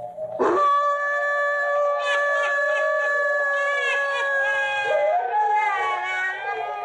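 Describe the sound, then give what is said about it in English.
A vicious cross-breed hound guarding an old house howls in the early evening. The single long, loud, wavering howl holds steady for several seconds and dips briefly near the end, with no other sound around it. “A pack of great, vicious, cross-breed hounds guards the old place from intruders. It is early evening. In the dim half-light, two figures, led by one of the hounds, approach the house.”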